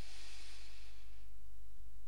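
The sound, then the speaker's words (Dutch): A deep breath in: a soft, airy hiss that holds for about a second, then fades away into near silence. “we gaan één keer diep inademen”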